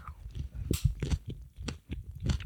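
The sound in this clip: A caper used as the eye of a vegan Mettigel is chewed, giving a run of soft, irregular wet bites and crunches with no talk.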